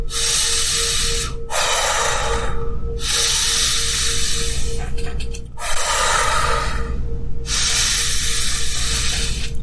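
A person breathing hard to demonstrate overexcited breathing, with a few loud, forceful, hissing breaths in long bursts separated by short pauses.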